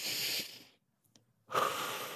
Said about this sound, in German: Es ist alles zu viel und ich atme ein und ich atme aus. Ganz bewusst.